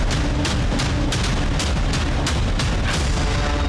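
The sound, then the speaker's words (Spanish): Stun grenades go off at dawn during a police raid on a few streets of the Voto Nacional neighbourhood in Los Mártires: many sharp, dry bangs come in quick, irregular succession over a constant loud roar of noise. “El sonido seco de las granadas aturdidoras rompió el silencio de la madrugada.”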